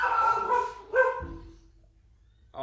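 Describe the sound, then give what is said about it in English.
A young six-month-old blue heeler dog barks in a few sharp, excited bursts, with a loud run of barks, then a quick yelp and a final bark after a short pause. “a little friggin' 6-month-old blue heeler just lost it.”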